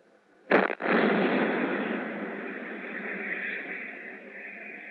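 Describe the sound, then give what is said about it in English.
Naval destroyer guns fire an artillery barrage aboard the ship, shelling North Vietnam during the Vietnam War: two sharp, loud blasts in quick succession give way to a long, broad rumbling roar that slowly fades. “This barrage is from the guns of the USS Alt. Its shells are landing on North Vietnam.”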